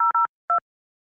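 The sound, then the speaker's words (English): Telephone keypad tones entering a PIN on a call-in line: three short, clean dual-pitch beeps, the first two in quick succession and the third after a brief pause, alone without talk. “Please enter your show or meeting number and press pound. Hang on. Enter your 6-digit PIN number.”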